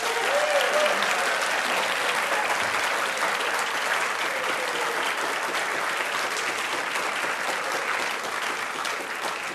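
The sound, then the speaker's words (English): A large audience at the National Museum of Australia bursts into a big round of applause on a count of three. Dense, steady clapping holds at an even level for about ten seconds and eases slightly at the end. “to kick off with is a huge round of applause to get us started. So I wonder if, on the count of three, before I kick off the introduction, if I can get you to make some noise, that will be brilliant. One, two, three.”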